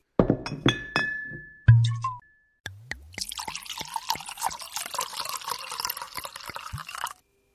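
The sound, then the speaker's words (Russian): A bottle clinks several times against a faceted drinking glass, with bright, ringing chinks, then liquid gurgles and splashes steadily as it is poured, before stopping. “Тут же зазвенела бутылкой и граненным стаканом. Послышалось бульканье.”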